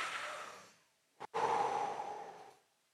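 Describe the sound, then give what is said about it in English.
A deep breath is drawn in with a long, soft, airy inhale, followed by a short pause and a catch. A longer, steady breathy exhale follows and fades out, and no voices are heard. “Do you want to do a big deep breath for me?”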